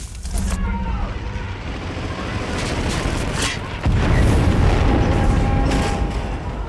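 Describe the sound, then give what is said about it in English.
A bomb hits a warship broadside in a wartime battle scene. A heavy, low boom surges partway through and swells into loud, sustained rumbling over an already noisy, roaring background. “Commander Bolton gestures to the ship's petty officer just before another bomb hits the vessel broadside.”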